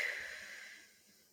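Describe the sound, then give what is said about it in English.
A demonstration breath in through the nose and out through the mouth, heard as a single soft, airy exhale that fades away quietly. “You just have to remember to breathe through your nose, out through your mouth, like this”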